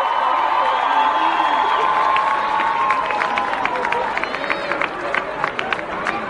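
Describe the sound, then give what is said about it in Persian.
Audience at a live music show cheering for a performer, with a steady roar of crowd voices and whoops, then scattered clapping over the final couple of seconds. “دوست دارم یه دست بزنید به افتخار سعید ترابی نازنین.”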